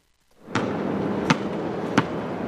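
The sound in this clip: Basketball impacts on an outdoor court across from the Berry Street houses in Brooklyn: three sharp thuds under a second apart, rising above a steady wash of outdoor background noise.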